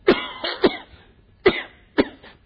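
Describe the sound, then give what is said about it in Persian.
Coughing: several sharp, dry coughs in an uneven run, three close together and then two more spaced apart, fairly loud against a quiet background with no talk. “مثل بنده، بنده اگر سرفه کنم، سرفه که حرام نیست، اما اگر خودم”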